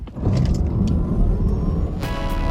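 A Ford Explorer driving, with a steady, full engine and road rumble that continues throughout and a brighter, hissing burst near the end.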